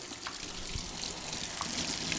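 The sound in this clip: Cold water runs over three freshly boiled eggs to chill them, a steady, fairly faint splashing trickle with no voices.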